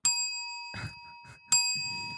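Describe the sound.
A bell is struck twice, about a second and a half apart, each strike giving a bright, sharp ding with clear high ringing tones that decay slowly.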